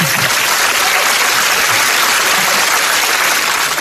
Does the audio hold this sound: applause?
yes